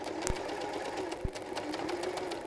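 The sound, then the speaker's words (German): A sewing machine running under foot-pedal control as it stitches around a piece of fabric, a steady fast whirr with rhythmic needle ticking and two louder knocks. “ich muss jetzt erstmal hier das Gaspedal finden.”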